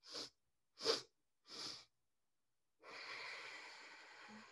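Breath-of-joy breathing exercise: three short, sharp inhales in a quick rhythm, then a pause and one long, steady exhale that trails off like a sigh. The breathing is soft and heard alone, with no talking.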